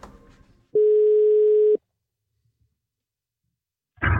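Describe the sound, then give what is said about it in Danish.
An electronic telephone line tone on a call to a record-book office: one steady, mid-pitched beep about a second long, followed by silence. “så ringede vi også tidligere i dag til Guinness rekordbog, og det lød jo sådan her.”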